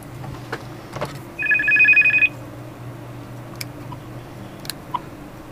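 A telephone rings with a single short, bright electronic trilling burst over a low, steady background hum, followed by a few faint clicks.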